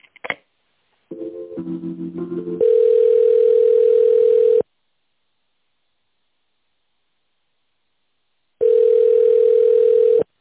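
Telephone line tones while a call is being transferred: a few short beeps and shifting tones, then a steady tone of about two seconds, a silence of about four seconds, and the same steady tone again.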